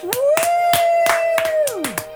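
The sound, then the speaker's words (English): Crisp hand claps, about seven in a steady rhythm, ring out under a long held vocal note that slides down at the end, opening a Dungeons & Dragons show. “You do good intros and claps,”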